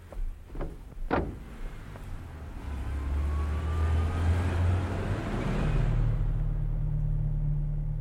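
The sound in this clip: A car is boarded and driven off. A few sharp door thumps and clicks come first, then a low engine rumble that starts up and grows steadily louder as the car pulls away.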